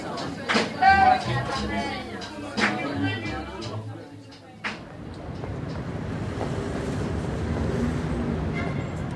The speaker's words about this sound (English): that noise you can hear is traffic going round the Place Charles de Gaulle along the cobblestones and into and out of the Champs-Élysées.